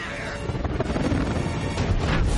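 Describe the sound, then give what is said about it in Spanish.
A film sound effect of a helicopter crashing into a floating mountain: a loud, dense, continuous roar of crashing and grinding impact noise with no clear separate hits, sustained throughout. “Agarra un helicóptero con sus garras y lo estrella contra una montaña flotante.”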